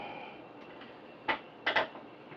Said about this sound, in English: there we go. There, I'm throwing screws again.